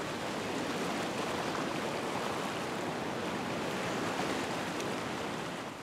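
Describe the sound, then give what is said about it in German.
Sea waves surge into natural rock pools among the rocks on an island coast, making a steady, dense rushing roar that holds level throughout without pauses or voices. “Schwimmen wie in einer riesigen Badewanne. Und sogar mit Wellengang.”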